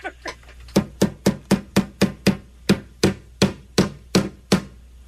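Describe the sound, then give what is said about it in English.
A hammer strikes in a quick, even rhythm, with over a dozen sharp, loud knocks, each with a short ringing decay, after a couple of softer taps at the start. “That's a hammer.”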